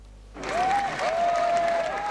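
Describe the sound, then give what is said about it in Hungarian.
Crowd applause at a mass demonstration against Nazism, greeting a parliamentary group leader. The clapping starts abruptly and holds as a dense, steady wash, with a long whistle-like tone running over it. “Taps fogadta a Fidesz frakció vezetőjét a tömegtüntetés a nácizmus ellen elnevezésű rendezvényen.”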